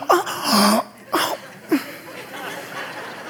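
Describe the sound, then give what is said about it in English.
A voice imitates a small, accidental burp with a short, throaty, voiced croak. Two briefer vocal bursts follow, with quiet between them. “When you're engaged and, you know, she burps accidentally.”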